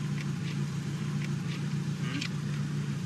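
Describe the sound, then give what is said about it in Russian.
A car drives through a city, its engine giving a steady low hum with a faint hiss of road noise above, even and unbroken throughout. “Едут по городу.”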